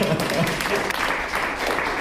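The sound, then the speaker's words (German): Audience applause at a civic gathering, many overlapping claps at a fairly steady, moderately loud level for about two seconds. “Genau, ein Applaus.”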